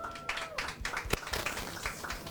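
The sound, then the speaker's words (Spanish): Scattered audience applause at a live press event: many faint, sharp, irregular claps, with a few louder individual strikes standing out against a quiet background. “Así que yo quiero que por favor ustedes le den un aplauso a eso.”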